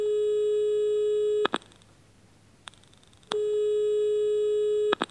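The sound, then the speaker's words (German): Ringback tone of an outgoing phone call to an agency that places home caregivers for seniors: two long, steady electronic tones separated by a pause of near-silence, with faint clicks at the tone edges. “Anruf bei einer Vermittlungsagentur für Betreuungskräfte für Senioren.”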